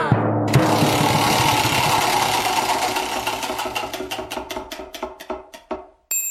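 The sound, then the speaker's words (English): A prize wheel spinning: a burst of loud, rapid ticking from its clicker that gradually slows, the clicks spreading farther apart over several seconds until the wheel settles to a stop. “Spin that wheel!”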